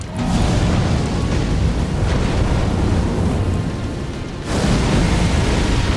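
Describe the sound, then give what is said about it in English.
A boss summons a flame orb and fires a fire beam attack in a video game, producing a loud, sustained roaring blast with heavy low rumble that dips briefly near the end before surging back at full force. “And then he's summoning his flame orb. He's shooting a fire beam, which really hurts.”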